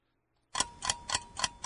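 Quiz timer ticking: after a brief silence, a few crisp, evenly spaced ticks sound alone at a steady rhythm, faint but clear.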